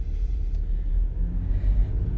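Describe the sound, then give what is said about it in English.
A car drives on the road on a morning commute to work, heard as a steady low rumble of engine and road noise that stays even throughout, with no talking. “I am driving to work this morning”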